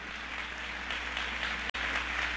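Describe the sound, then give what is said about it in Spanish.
A church audience applauds during a sermon, producing a steady, even wash of clapping that continues throughout with one very brief dropout near the end. “¿Cuántos dan un aplauso al Señor Jesucristo? Denle un aplauso fuerte.”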